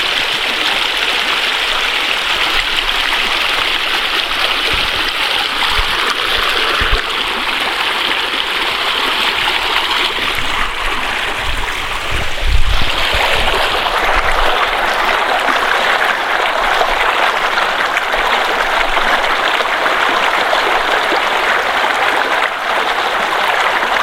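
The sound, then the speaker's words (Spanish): The Panoaya River in Amecameca de Juárez flows in January 2010, a loud, steady hiss of rushing water that holds constant throughout, with a slight swell near the middle. “Porque los sonidos también son patrimonio de nuestra comunidad. Postales sonoras de Amecameca. De Amecameca. Río Panoaya, Amecameca de Juárez, enero 2010.”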